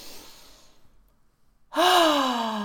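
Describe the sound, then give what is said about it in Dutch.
A deep inhaled breath during a guided relaxation breathing exercise: breathy, hissing airflow that slowly fades into a short silence, followed by a sudden loud, tonal voiced sound that holds to the end. “Flinke ademteug in.”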